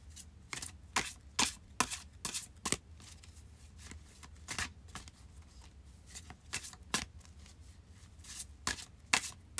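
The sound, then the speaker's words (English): Oracle cards being shuffled: many crisp, papery riffling bursts in an irregular rhythm, faint and alone. “let's pull a Witch's Wisdom Oracle card”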